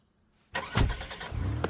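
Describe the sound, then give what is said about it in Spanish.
A car engine starts after near silence, bursting abruptly into a loud rumble that surges once and then settles into a rough, steady running sound. “arranca el coche y da marcha atrás”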